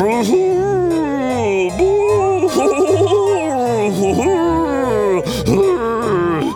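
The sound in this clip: A vampire creature's horrid howl, imitated by a human voice as a long, wavering wail and moan whose pitch slides up and down, loud and continuous throughout.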